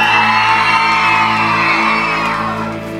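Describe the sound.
A live audience at a midday show cheers and whoops loudly, a continuous mass of shouts and high whoops that eases slightly toward the end.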